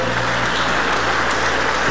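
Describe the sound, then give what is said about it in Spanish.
Audience applause at a religious gathering of young people during a talk on personal finance: a steady, dense wash of clapping over a low hum, with no voices. “Dale un aplauso al Señor Jesucristo.”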